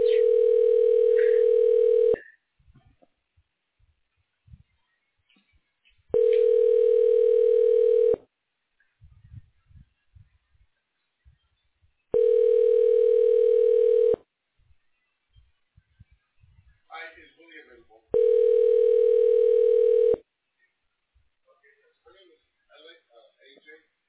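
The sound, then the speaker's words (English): A telephone ringback tone plays while a call is transferred. Four long, steady tones of about two seconds each are separated by pauses of roughly four seconds, with faint clicks and noise in between. “Let me transfer you now.”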